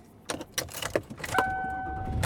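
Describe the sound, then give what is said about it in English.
A car driving home, with a steady low road rumble beneath a few sharp clicks and knocks and a brief sustained two-note tone partway through; no one talks. “And I am driving home.”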